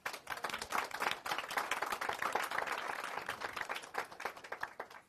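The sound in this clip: An audience applauds to welcome a speaker at a talk on community organizing, with many hands clapping steadily for about five seconds before it thins out at the end.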